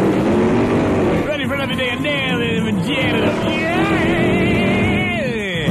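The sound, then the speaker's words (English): A car fishtails out of a parking lot. Its loud, continuous engine roar runs under wavering, squealing tones that rise and fall throughout. “you pass inspection, and you and your partner fishtail it out of the parking lot.”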